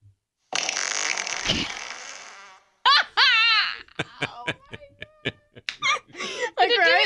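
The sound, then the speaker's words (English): A fart sound played from a phone fart app: one long, loud, sustained blast of about two seconds that tapers off, followed by laughter and talking. “I downloaded a fart app just to show. Oh, great. This is like, we'll do a demonstration of the length of time that it happened.”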